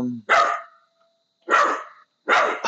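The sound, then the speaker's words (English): An Australian Shepherd barks three times, each bark sharp and loud and separated by short, even pauses, with no other sounds in between. “what you hear barking is Gus”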